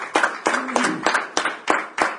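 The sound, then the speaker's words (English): A church audience claps in a steady rhythm, with many sharp claps landing about three times per second at an even, moderate loudness. “Let's give the Lord a hand of applause.”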